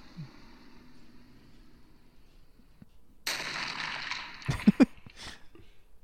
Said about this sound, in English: Airstrike.